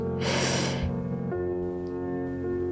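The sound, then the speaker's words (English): A single deep breath in during a child and parent meditation: a short, airy inhale lasting under a second over soft, steady sustained tones. “slowly we'll take 3 deep breaths together. Breathe in”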